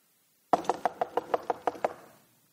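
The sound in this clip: Knocking on a wooden house's door: a quick, even run of about nine sharp raps, each crisp and loud, followed by a short fading decay into silence.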